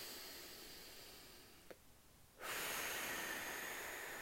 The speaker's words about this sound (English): let's come to take a deep and full inhale in.